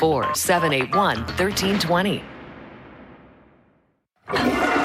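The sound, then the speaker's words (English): Raw sewage rushes into Winnipeg rivers in a broad, steady roar of pouring water. It follows talk, then slowly fades to near silence before voices resume. “Do you hear that? That's millions of liters of raw sewage dumping straight into Winnipeg rivers.”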